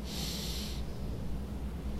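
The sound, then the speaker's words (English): A deep breath drawn in through the nostrils: a single short, soft nasal inhale over a low, steady background hum. “Draw a deep breath in through your nostrils.”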